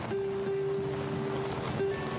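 Storm waves and wind make a continuous broad rush of surf and gusting air at an even level, with a faint sustained tone running beneath.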